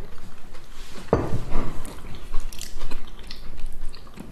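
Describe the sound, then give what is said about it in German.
Chewing of crunchy gluten-free crumble with tiny streusel bits: one sharp bite-crunch, then steady moist mastication and soft crunching noises. “Oder mit den glutenfreien Crumble kann man gut voll essen, oder? Vor allem dadurch, dass hier so auch teilweise so ganz klitzekleine Streuselchen drin sind. Es ist überall so einen leichten Crunch.”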